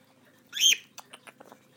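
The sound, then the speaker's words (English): A pet bird calls with one loud, shrill squawk, then a quick series of softer short chirps. “Seriously, you are one funny bird today. You really are emotional today, aren't you?”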